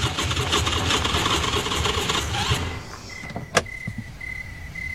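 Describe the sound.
A car engine sputtering as it runs out of gas, rumbling roughly for about two and a half seconds before cutting out, followed by a sharp click and a thin steady high tone.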